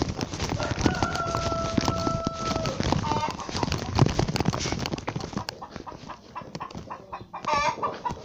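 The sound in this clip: Chickens clucking on a small farm while a keeper checks the flock of nine birds, the calls broken up by steady scratching and clattering noise throughout.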